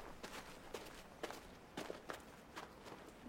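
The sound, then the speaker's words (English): Footsteps crossing a snow-covered street on a freezing day: a few soft, muffled crunching steps in an uneven walking rhythm, faint and alone over a low background hiss. “They walk across a snow-covered street.”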